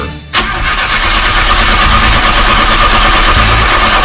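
A car engine struggling to start. A short quiet moment gives way to an abrupt, loud, rough mechanical rumble that holds fairly steady to the end.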